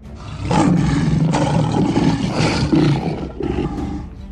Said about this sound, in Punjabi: सो उस रात वो शेर दे रूप विच तब्दील हो गए। वो दो भयानक शेर शाही सोन वाले कमरे विच दाखिल हो गए।